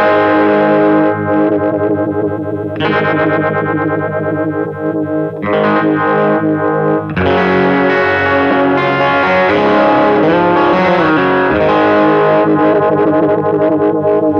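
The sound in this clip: Electric guitar played through a Sweet Sound Mojo Vibe, a Univibe-style pedal, plays loud distorted chords and riffs with a swirling, throbbing modulation. Short gaps break the phrases, and no one talks.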